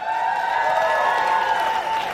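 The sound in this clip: Audience applause and cheering for a live singer at the 2022 Afro Roots Fest in Miami, a dense sustained wash of clapping with voices ringing through it, steady in loudness.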